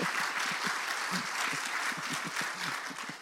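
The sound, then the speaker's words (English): Audience applause greets a community college president at a public question session: dense, steady clapping that holds at an even loudness for about three seconds, with no voices over it. “Applause for Rob.”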